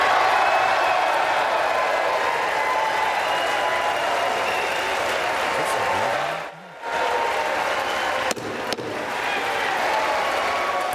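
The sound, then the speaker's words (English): A crowd in the House chamber applauds and cheers as Kevin McCarthy is named Speaker after a five-day, 15-ballot floor fight. The applause is loud and sustained, briefly dipping midway before swelling back. “Okay, well, it was loud and some yays. I don't know if there were boos, but it was loud.”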